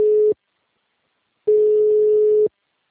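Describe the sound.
A telephone busy tone sounds after a dropped call: two steady, low, even tones separated by silence, the first cut short at the start and the second lasting about a second.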